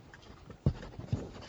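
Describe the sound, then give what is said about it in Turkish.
A pen writes a cheque with faint scratchy strokes, broken by a couple of soft taps of the nib on the paper. “Gerisine çek yazacağım. Kaleminiz var mı?”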